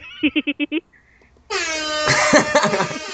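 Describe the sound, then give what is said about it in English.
An air horn sound effect: five short, rapid honks, a brief pause, then a long, loud blaring blast with a dense, brassy harmonic tone that swells toward the end. “I was waiting for the noise.”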